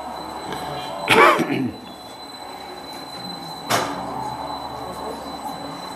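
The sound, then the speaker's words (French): Train noise in a station district in Japan: a loud burst of wheel squeal near the start and a second, shorter one a few seconds later, both over a steady low hum. “Ah, le quartier de la gare.”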